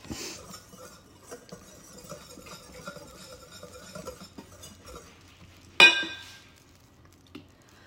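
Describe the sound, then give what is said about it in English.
Faint scraping and tapping of a whisk mixing dry sourdough-discard pancake ingredients with sugar in a bowl, a long run of small light contacts broken by one sharp, louder clink near the end. “All right, so we are mixing up the solid ingredients. Those are good and whisked together.”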